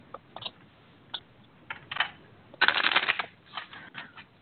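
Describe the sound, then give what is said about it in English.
Tarot cards being shuffled and drawn: a few short, crisp riffling clicks, then a dense, papery burst of shuffling, followed by several lighter card snaps and flicks. “Well, I just pulled three cards”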